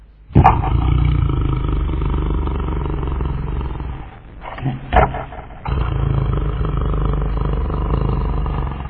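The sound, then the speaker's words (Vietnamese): A wolf snoring loudly while asleep in a grassy field: deep, rough, rumbling breaths in two long sustained stretches, broken midway by a short pause with a few brief bursts, no talking. “Khi tới cánh đồng cỏ, dê mẹ trông thấy sói đang ngủ say, ngáy ầm ĩ.”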